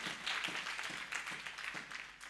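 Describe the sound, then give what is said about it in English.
A church audience claps for the ministers, producing a quiet, steady patter of many hands with a loosely rhythmic pulse. “Let's clap hands for the ministers here.”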